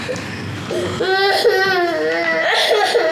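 A young child crying, a sustained, tearful wail with a wavering, high, tonal pitch that swells and dips in loud, continuous sobs.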